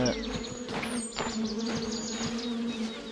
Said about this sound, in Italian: I hear the bees. I don't see them. They must be off the path somewhere.